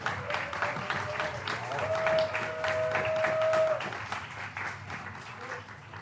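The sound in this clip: An audience applauds as a speaker is welcomed to the stage, producing fairly quiet, steady clapping with no breaks.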